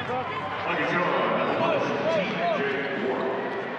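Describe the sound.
A basketball is dribbled on the court during a professional game involving the Pacers. The bounces sit under a steady, loud roar of crowd noise, with a few short squeaking tones between them.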